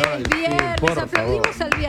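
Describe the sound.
Hands clap together in a steady rhythm, about one sharp clap every quarter second, over a continuous voice with a pitched, sustained tone.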